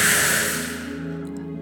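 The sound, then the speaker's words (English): Slow, deep breath out during a guided relaxation: a soft, airy hiss that fades gradually over a low, steady hum, with no talk. “take another deep breath and breathe out again”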